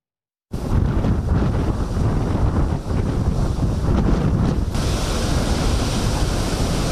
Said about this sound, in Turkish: Saatte 70 kilometre hızla esen rüzgarla birlikte denizde dev dalgalar oluştu.